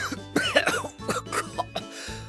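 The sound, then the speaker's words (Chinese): A person coughs several times in quick, harsh bursts after choking on dust stirred up when boxes toppled to the floor, with rough throat-clearing between them. “边南吓了一跳，回头就被腾起来的灰尘呛得咳了两声。”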